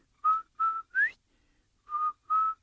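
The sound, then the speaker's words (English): Five short, clear whistled notes sound alone and fairly faint: three in quick succession, the third sliding upward in pitch, then a pause and two more level notes. “if you're out in the woods or out there and out in the field, and you hear this beautiful whistle,”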